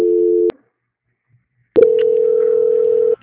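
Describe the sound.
Telephone call transfer tones: a short, steady, mid-pitched electronic beep, a pause of over a second, then a longer steady tone lasting about one and a half seconds, both loud and clean.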